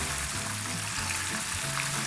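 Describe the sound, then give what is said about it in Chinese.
Fried food sizzles steadily as it is tossed with Thai basil in a hot oiled pan over high heat, a continuous bright, loud crackle with no voices. “我为什么要拿锅子？我等一下把它拌，我要拌到那个九层塔都扒在那个炸物上面。”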